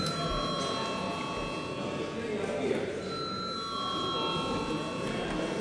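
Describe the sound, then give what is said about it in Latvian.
A parliament bell rings before a vote on a municipal budgets bill, a steady, unbroken tone held for the whole clip over constant background noise. “Komisija lūdzu atbalstīt šo likumprojektu pirmajā lasījumā. Lūdzu zvanu.”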